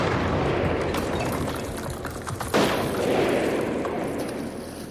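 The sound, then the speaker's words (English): A blast from an explosive charge set off by a remote detonator: a loud, dense, rumbling roar fills the whole stretch, with a sharper burst breaking through about halfway. “Then fire in the hole. Remote detonator armed! Cover and brace! In 5, 4, 3, 2, 1!”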